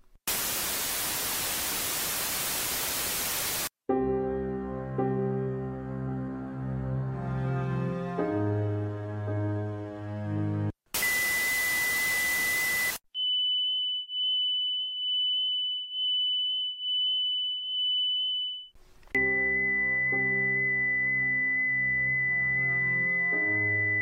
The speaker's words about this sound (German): Jetzt habt ihr mal so einen kleinen Klangteppich von dem erlebt, wie sich ein Tinnitus bemerkbar machen kann. Für die einen gibt es dann ein Rauschen, für die anderen ein Rauschen mit einem Piepston.